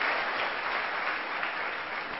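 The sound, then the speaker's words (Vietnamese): Audience applause during a Buddhist dharma talk: dense, steady clapping from many hands that holds at an even level throughout, with no voices. “Chắc thì cho một chàng pháo tay thay đổi không khí liền.”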